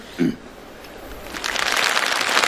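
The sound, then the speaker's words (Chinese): Audience applause for a comic duo on stage follows a short vocal sound: after a quieter stretch, a dense crackle of clapping swells in about halfway and carries on at a moderate level. “非常感谢大家热情的掌声鼓励”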